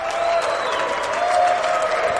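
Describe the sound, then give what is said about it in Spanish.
Audience applause before a man rings a bell, loud sustained clapping from a crowd that holds steady. “Le aplauden y todavía no se arranca a tocar la campana. Aplaude él mismo porque, bueno, tendré que tocar la campana en algún momento.”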